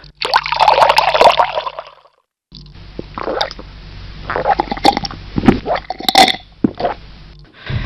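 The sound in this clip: Gulping and swallowing as an injured captain, lying down after a fall, drinks a little water: a few wet gulps and small plops in uneven bursts with a short pause between, fairly loud, with no talk.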